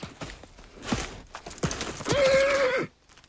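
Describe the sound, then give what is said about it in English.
A horse trots and charges in a corral, with a few hoof thuds and snorts, then a louder, drawn-out horse vocalisation near the end before the sound drops away. “Pilgrim tosses his head, paws the ground, and backs away. Pilgrim trots up to Tom, throwing his head in the air. Tom sways back. Pilgrim charges him again.”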